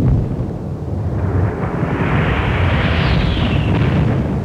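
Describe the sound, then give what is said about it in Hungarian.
A grenade explodes on the battlefront, a deep, sustained rumbling roar that stays loud and heavy for several seconds. “Gránát! Megint egy.”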